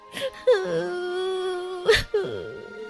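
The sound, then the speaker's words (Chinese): Wailing cries voiced by a storyteller for a hungry girl in a gingerbread-house tale: a long, sustained moaning tone between breathy catches, with a few shorter sobbing bursts afterward. “阿米莉亚哭了起来。”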